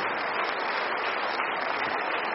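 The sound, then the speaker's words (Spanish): An audience applauding in church: a continuous, dense hiss of many hands clapping together at an even loudness from start to finish, with no single claps standing out. “No dejen de aplaudirle al Señor.”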